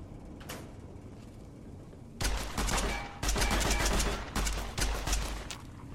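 Ballistic weapon gunfire in a video game: after a quieter stretch, several loud crackling bursts of rapid shots with a heavy low thump break in, separated by short gaps.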